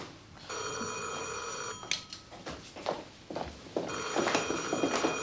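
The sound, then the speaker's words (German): A telephone bell ringing late at night: two long, bright, steady rings separated by a pause filled with a few soft thuds. “So spät? Wer ruft jetzt noch an? Das wird meine Frau sein.”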